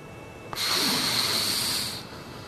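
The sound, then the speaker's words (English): A single long, deep breath, a steady and fairly loud airy rush lasting about one and a half seconds before easing off, with nothing else around it. “why don't you take a nice, deep breath in, like this,”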